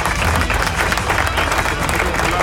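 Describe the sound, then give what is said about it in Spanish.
Applause from a small group, a rapid patter of clapping mixed with crowd noise and low rumble, steady and fairly loud across the whole stretch. “así que aplauso”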